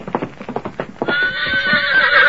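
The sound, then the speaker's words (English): A horse's hooves clip-clop in a quick, steady rhythm, then the horse breaks into a long, loud, high whinny as a mount is brought out for a rider in a Western drama. “There's a horse for you, Jackson.”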